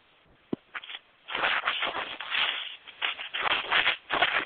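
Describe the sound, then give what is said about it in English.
Muffled shuffling and rustling from a radio caller walking and moving around on a phone line, bursts of scraping noise that swell and fade, with a brief sharp knock near the start. “We can hear you walking. I can hear a lot of moving in the background on 970, but you're on the air.”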